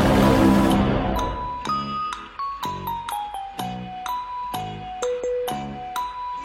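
A stream alert chime for a new follower plays a bright melodic jingle of many short ringing tones in a steady rhythm. A brief noisy burst comes before the tones.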